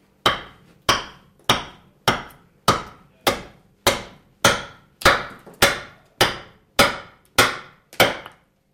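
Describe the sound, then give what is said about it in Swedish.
Axe chops into wood, carving the back of a wooden spoon on a large chopping block. Many sharp, loud, evenly spaced strikes land at a steady rhythm, each cracking hit dying away quickly before the next. “Så börjar jag forma skedens baksida och jag jobbar på en stor huggkubbe.”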